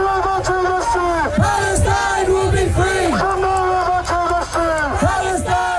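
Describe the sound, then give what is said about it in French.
A pro-Palestinian protest crowd in London chants in unison, a rhythmic, repeated call of many voices with clear pitched phrases rising and falling in steady cycles. “On entend une manifestation pro-palestinienne qui a rassemblé de nombreux protestataires.”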